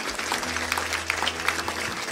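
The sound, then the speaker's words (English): Applause from a church audience, a steady dense patter of many clapping hands at moderate level lasting the whole stretch, with a low hum underneath. “Give God a round of applause.”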